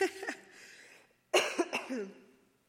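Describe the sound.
Faint coughing from a person with a persistent tickle in the throat, in two rough bouts separated by a short pause, each made of a few quick hacks.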